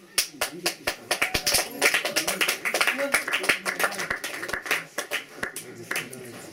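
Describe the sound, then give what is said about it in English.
An audience claps during a public talk in Berlin: scattered, uneven hand claps build into a patchy burst of applause, mixed with crowd noise and voices talking. “That's right, you can clap, you're allowed to clap, you're allowed to make noise”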